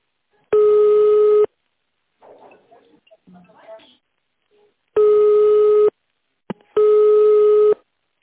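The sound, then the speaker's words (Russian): Telephone line tones while a call is being transferred: three steady, loud beeps of about a second each, the last two close together, with faint muffled sounds in the gap after the first. “Сейчас переключу вас на Анну.”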